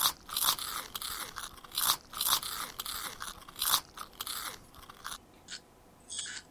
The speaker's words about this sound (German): Ich habe Hunger. Ich möchte Kartoffelchips essen.